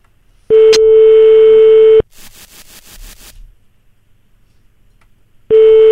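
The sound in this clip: A French telephone ringback tone sounds while calling a service station: a steady, loud beep of about a second and a half, a burst of rapid clicks in the pause, then the beep starting again.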